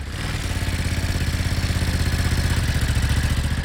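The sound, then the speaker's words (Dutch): A running engine of the kind shipped as cargo on a container ship throbs in a fast, even pulse. It stays loud and steady throughout, with no voices over it. “Staan dit soort motoren op die boot? Deze niet specifiek, maar het lijkt er wel op qua geluid.”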